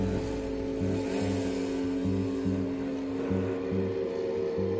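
A motorcycle engine drones as the bike arrives at a school. The sound is a dense, continuous mid-pitched hum with low pulsing undertones, holding loud and fairly even throughout.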